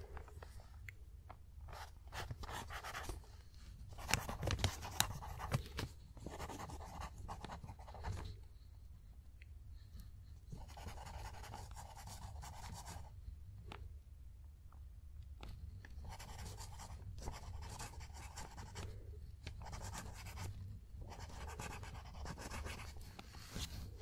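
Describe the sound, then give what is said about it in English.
Pen scratching on paper while notes are taken, an ongoing run of short, dry strokes and scribbles with brief pauses, steady and fairly quiet throughout. “First, I'm taking notes on you.”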